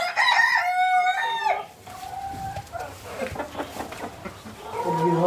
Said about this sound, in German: Die Henne hier brütet, da muss man immer etwas aufpassen, dass sie einen nicht angreift.